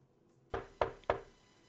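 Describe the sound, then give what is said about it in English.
Three knocks on a door, sharp and evenly spaced, each with a brief ring-off after it. The knocks are fairly quiet and heard alone, with no talk over them. “And I knock on the door.”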